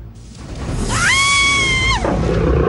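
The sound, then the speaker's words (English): A tiger roars in a sandy area outside a cave: a single loud, drawn-out harmonic cry that rises, holds steady for about a second, then drops away over a low rumbling background. “She finds herself in a sandy area and a tiger stalks out of a cave behind her.”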